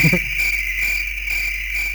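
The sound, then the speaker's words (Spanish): A cricket chirps in a steady high-pitched trill, with fast pulses repeating evenly and loudly the whole time. “Eso es un grillo.”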